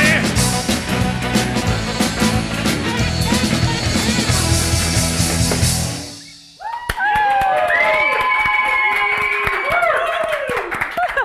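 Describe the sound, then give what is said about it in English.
A live studio audience claps and cheers loudly for several seconds before the noise fades, then a fresh wave of applause rises with shouts and whoops. “let's start by welcoming the live studio audience. Live studio audience. They're quite loud today.”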